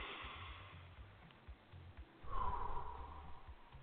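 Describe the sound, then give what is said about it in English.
Deep, slow breathing during a guided relaxation exercise, drawn in through the nose and let out through the mouth. It starts soft and airy, then swells into a fuller breathy rush in the second half. No one talks. “Close your eyes. Breathe in through the nose and out through the mouth.”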